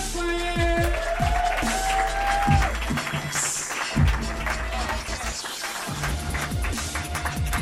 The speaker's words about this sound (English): Give it up for Tony